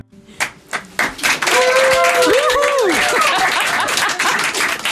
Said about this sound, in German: Sehr gut gepfiffen, herzlichen Dank für die Unterstützung.